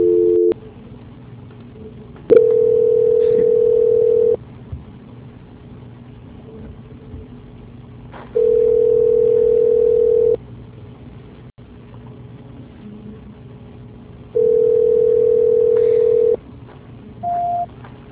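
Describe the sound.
A telephone ringback tone sounds while a call is being transferred: three steady, mid-pitched tones of about two seconds each, separated by long quiet gaps, then a short higher beep at the end.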